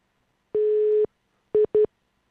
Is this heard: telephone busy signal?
yes